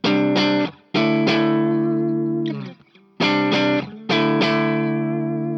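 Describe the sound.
Electric guitar played through a boosted overdrive pedal, with the volume turned down after the pedal. Crunchy overdriven chords are struck and left to ring in loud bursts, with a few short pauses and quiet gaps between them.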